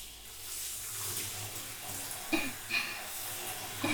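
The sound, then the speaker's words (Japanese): Hot water being poured, a soft, steady watery flow heard faintly and alone, with a few brief small splashes or clinks near the end. “私も最初のこのお湯をかける瞬間が気持ちいいと思う。”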